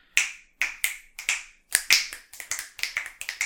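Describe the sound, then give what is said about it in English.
Many sharp finger snaps crack out in a quick, uneven series in a very live room with no textiles, each bright snap trailing a brief ringing decay, the later ones coming faster; no voices. “no textiles in here at all, except what we're wearing. So, for those of you not in the know, this is what a very live space sounds like when you're recording.”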